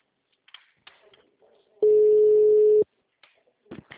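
A voicemail tone sounds after the greeting as one steady, loud, mid-pitched beep lasting about a second, with faint brief sounds before and after it.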